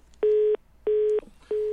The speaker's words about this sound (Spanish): Se nos acaba de, de cortar la llamada.